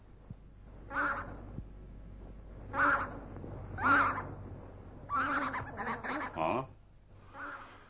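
Wild geese calling: several short, nasal honks spaced out over a quiet background, the later ones coming in a quicker cluster before a final fainter call.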